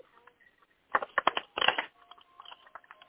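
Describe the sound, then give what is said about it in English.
A deck of playing cards is shuffled: soft scattered flicks, then a quick run of dense, crackling riffles in the middle, tapering back to lighter ticks and taps. “Shuffle one more time.”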